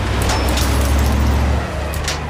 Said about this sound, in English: The car tires spin and it reverses out of its spot.